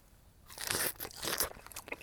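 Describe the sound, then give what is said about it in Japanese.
Fresh strawberries are chewed with a quiet, moist crunching, many small bites and squelches in quick succession without any talk. “フルーツはそんなに日頃食べないんですけど、これだけ新鮮だったらもういくつでも食べられるね。”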